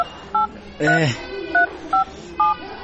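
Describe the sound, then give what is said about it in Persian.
Telephone keypad tones sound as a number is dialed: four short, bright beeps at uneven intervals, with a brief voiced sound between the first and second. “خیلی باز که من یک دفعه به فاروق زنگ بزنم و بفهم که گپ از قرار است.”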